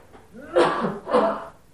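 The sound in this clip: A single sneeze heard alone: a loud two-part burst of breath and voice, a sharp first push followed by a second explosive release, lasting about a second.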